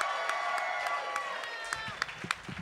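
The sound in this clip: Audience applause and cheering for a comedian at a comedy show, with steady clapping and raised voices that thin out into scattered claps near the end.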